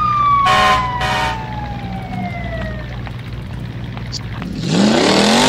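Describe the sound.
Fire truck siren wailing with a slowly falling pitch over a low engine rumble, followed near the end by a louder rising tone.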